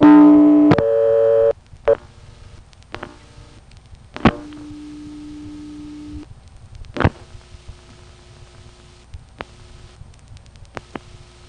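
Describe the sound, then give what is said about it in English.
Local busy signal from dialing a payphone's own number: steady electronic tones that start and stop, broken by several sharp clicks, with a low hum between them. “Let's dial the number of our own payphone to get the local busy signal.”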